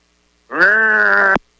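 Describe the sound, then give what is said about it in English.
A single sustained animal call meant as an angry cow's moo: one loud, steady-pitched, harmonic-rich call of about one second, with no talk. “Yeah, that cow was mad at you.”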